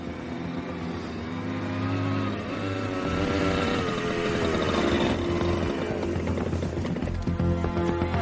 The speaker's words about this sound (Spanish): La moto se aproxima.